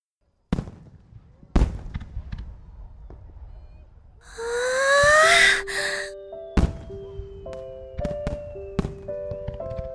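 Fireworks launch and burst, with a rising whistle streaking upward between several sharp, loud booms, followed by scattered cracks and thin tonal whines.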